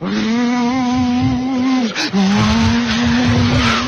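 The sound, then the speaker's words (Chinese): A human voice imitates a motorcycle engine with a loud, sustained, buzzing drone. The drone breaks off briefly partway through, then resumes at the same pitch and keeps going steadily. “有一辆摩托车。 太好了！ 骑着摩托车逃跑， 骑摩托车。”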